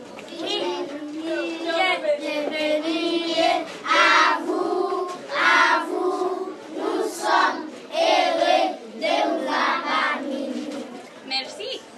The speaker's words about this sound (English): We walk in and the kids do what, apparently, they always do for visitors. They stand up and sing the welcome song.